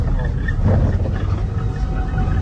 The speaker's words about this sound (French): Un petit bus qui passe tout boueux avec des personnes à bord.